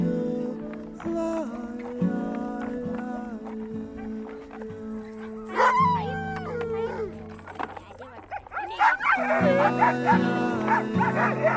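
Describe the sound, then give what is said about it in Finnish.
A dog barks, yips and whimpers in many quick calls mixed with high, thin whines, busy and fairly loud, with no clear talking. “That's the best dog I've ever had.”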